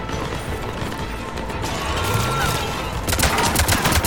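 Rockets firing in a video game: dense, noisy battle sound that surges into a louder burst of sharp, crackling blasts near the end.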